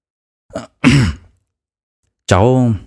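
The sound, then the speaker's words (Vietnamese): Throat clearing by a man, performed in a read-aloud story: a few rough, gravelly bursts close together, then after a pause a longer, more voiced clearing of the throat, loud and without talk. “Trương Đông Thăng đằng hắng một tiếng rồi nói:”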